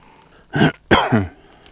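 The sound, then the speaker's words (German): Throat clearing while coughing up phlegm: two rough, harsh bursts, the first short and the second longer and gravelly, with quiet in between. “Räusper. Ja, da kommt das letzte bisschen Sprudel noch aus der Lunge nach oben.”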